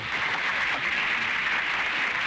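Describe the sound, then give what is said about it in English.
An audience applauding: a dense, continuous wash of clapping at a steady level with no breaks and no talking. “And the morons in the audience all applauding this.”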